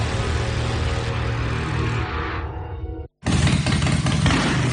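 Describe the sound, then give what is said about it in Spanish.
Loud, throaty roar of a Harley-Davidson motorcycle engine revving. The engine sound drops into a brief gap of silence near the end, then roars back at full strength. “Uf, com sona, eh? Quina música. És una Harley.”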